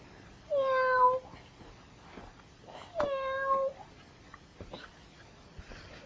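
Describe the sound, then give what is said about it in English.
A cat meows twice, each meow lasting under a second with a slightly falling pitch. The two are separated by a pause of about two seconds, with soft scattered noises in between. “What does the kitty say?”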